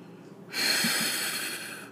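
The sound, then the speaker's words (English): A single deep inhalation during a relaxation exercise: after a brief quiet moment, a soft, airy breath is drawn in steadily for about a second and a half. “Relax. Breathe in.”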